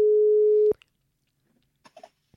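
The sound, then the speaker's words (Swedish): Ringback tone while calling someone on the telephone: one steady mid-pitched tone lasting under a second, then near silence broken by a few faint clicks and soft rustles. “Vänta, jag ska se om vi kan ringa henne.”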